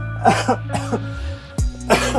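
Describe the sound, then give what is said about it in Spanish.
Harsh, uncontrollable coughing from a pregnant woman who cannot stop: a rapid series of loud, rasping bursts with throat-clearing, set over a steady low drone. “Tosiendo sin poder cesar”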